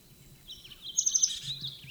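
A faint bird call, the chulep of a longquist bird in the distance: a quick run of a few high, thin chirps near the middle of an otherwise quiet clip.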